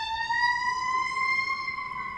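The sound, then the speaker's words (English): An emergency vehicle siren sounds alone as a steady, piercing electronic tone that drifts slowly upward in pitch throughout. “There's our siren cue to start.”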